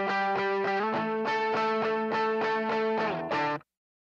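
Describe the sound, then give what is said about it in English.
Electric guitar played through a BD2 overdrive pedal, a run of many gritty, sustained strummed chords on a steady pulse, with chord changes along the way before the sound cuts off abruptly. “So we've listened to our BD2, we've gotten our unique type of overdrive.”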